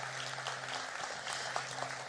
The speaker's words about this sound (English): Let's give a round of applause to those who accepted Jesus today.